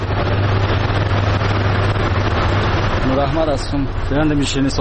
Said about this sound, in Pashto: د نوموړي خبرې د شیرینۍ جوړولو د ماشین په غږ پیلېږي.